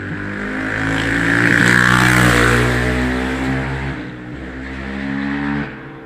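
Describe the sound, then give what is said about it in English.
A small dirt bike rides past on a road. Its buzzing engine swells louder, then fades, rises briefly again and drops away, with no talking over it. “some dude went by on a little fucking dirt bike.”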